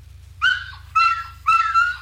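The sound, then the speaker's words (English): Dog barking: a few short, harmonic barks with a slightly whining tone, each separated by a brief gap, over a steady low hum. “That's my dog's barking.”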